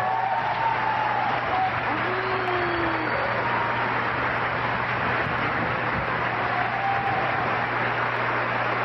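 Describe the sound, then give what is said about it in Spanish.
Applause welcomes conductor Arturo Márquez before an orchestra dressed in white. It is a steady, even wash of clapping throughout, under a low constant hum, with a voice talking over it. “La orquesta, todos los miembros de la orquesta, además vestidos de blanco, dan la bienvenida al maestro Arturo Márquez.”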